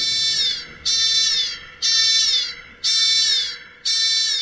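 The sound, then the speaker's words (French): Intrusion alert alarm tone: five loud, high-pitched electronic tone bursts, each sliding slightly down in pitch, repeating in a steady rhythm and separated by short gaps. “Alerte intrusion. Alerte intrusion. Restez calme.”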